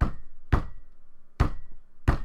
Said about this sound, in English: And the obvious answer is clearly the Master, because there's some knocking going on. But was it four knocks?